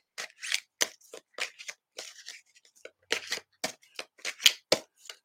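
A deck of cards is shuffled by hand, giving many short, crisp riffles and flicks in an irregular rhythm, with brief pauses between bursts and no talking.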